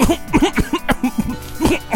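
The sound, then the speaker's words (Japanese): A person gives sputtering, choking coughs after drinking something cold: a rapid run of many short, harsh, loud bursts with throaty catches between them and no talk. “一番いいのはそれ飲んだ時にね、むせることですね”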